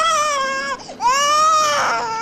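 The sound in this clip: An infant wails in a sustained, high-pitched harmonic cry that breaks off briefly partway through, then resumes just as loud and strained.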